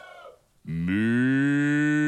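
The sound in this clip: A cow lets out one long, loud, low moo that holds steady for well over a second and carries rich harmonics, with no other sounds beside it.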